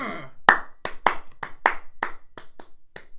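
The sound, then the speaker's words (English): Hands clapping in about a dozen sharp, separate claps at an uneven pace, each crisp and loud against near silence. “Do you want to do another clap?”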